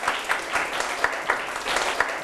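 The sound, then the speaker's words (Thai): Classroom applause as students clap for a classmate: a short burst of dense, moderately loud clapping that holds steady for about two seconds, with several sharper accents standing out and no talking over it. “ถูกต้องครับปรบมือเพื่อนหน่อยครับ”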